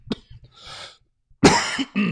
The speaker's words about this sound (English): The message I have for today is if you don't like coughing, I would skip the pneumonia when that opportunity comes around.